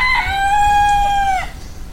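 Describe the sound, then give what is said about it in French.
A rooster crows in a farmyard where hens roam after rain, one loud, bright call held steady for over a second before breaking off, alone without voices. “il domine la cour de ses poules sorties après la pluie. Il chante avec panache, les plumes colorées, la crête bien rouge.”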